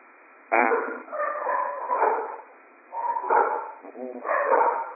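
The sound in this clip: Excited dogs barking and yipping in several uneven bursts, with whimpering whines between the barks.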